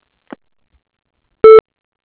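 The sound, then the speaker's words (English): A voicemail beep: a single short, loud electronic tone rich in harmonics, with a faint brief blip before it and silence on either side. “Please leave a message at the tone, and someone will get back to you as soon as available.”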